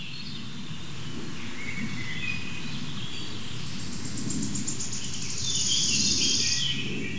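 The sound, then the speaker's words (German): Faint bird song, a quick high trill rising out of a steady insect-like background hiss toward the end, with no voices. “Das ist der Vogel, der sich so krass bewegt.”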